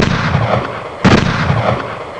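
Loud, sharp gunshots from hunters shooting down a charging bear. A few booming reports sit over a rough, noisy background, with one clear blast standing out midway.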